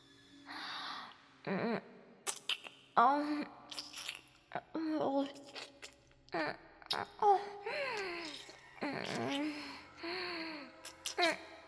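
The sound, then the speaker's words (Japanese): Quiet, wet kissing sounds of lips and tongue: many soft smacks and slurps come in irregular bursts, mixed with breathy moans and gasps. “思ったよりうまいキスだな。そんなに舌を積極的に動かして。”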